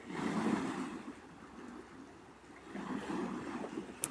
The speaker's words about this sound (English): And the lake is singing with us, and the wind is singing with us